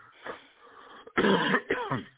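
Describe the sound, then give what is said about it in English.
Coughing and throat clearing from a person with a lingering cough: a faint rasp, then two louder, rough bursts close together, heard alone with no talk. “And I still get a lingering cough every so often.”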